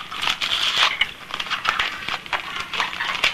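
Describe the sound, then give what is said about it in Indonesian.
Crinkling of a chocolate wrapper being unwrapped: a dense run of irregular, crackly rustles and crisp pops that continue steadily throughout, with no voices. “buka yang bungkus ini. Coklat ada di sini. Bungkus coklat nih, bungkusnya coklat warnanya.”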